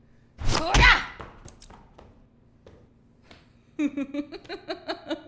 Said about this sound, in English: Here, let me show you what the real punch is like.